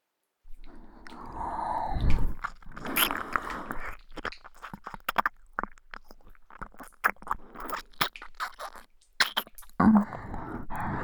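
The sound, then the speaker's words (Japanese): Ear licking with wet mouth noises, many soft irregular smacks, slurps and clicks scattered at varying loudness, with a few louder breathy bursts and no clear talking. “そう、そのリズムのまま私が耳を舐めてあげる。”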